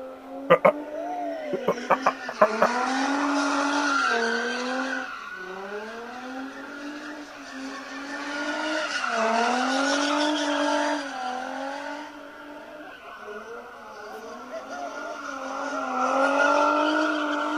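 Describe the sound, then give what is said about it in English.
Cars street racing with tires skidding before a large crowd: a loud, sustained squeal that wavers up and down in pitch throughout, opened by a few sharp bangs. “There's like a hundred people out there street racing.”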